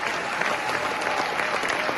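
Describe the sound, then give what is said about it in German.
Standing ovation with thunderous applause from an audience of about 1800 in a large philharmonic concert hall, dense and steady clapping that stays loud and even throughout. “Am Ende gibt es Standing Ovations und tosenden Applaus.”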